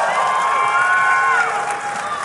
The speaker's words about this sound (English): Of course, you don't know who you're applauding for necessarily yet.